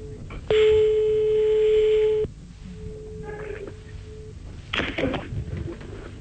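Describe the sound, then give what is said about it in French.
A telephone ringback tone sounds as an outgoing call is placed: one long, steady, loud tone of about two seconds, then a faint lingering hum and a few brief rustling noises. “On l'appelle maintenant. Et il y a... Ça sonne.”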